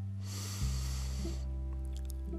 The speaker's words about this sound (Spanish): Sostén. Exhala por nariz. Última. Inhala profundo.